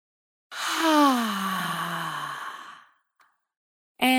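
A deep breath out during a breathing exercise, heard as a long voiced sigh whose pitch sinks as it trails off, followed by a short pause and a brief faint breath.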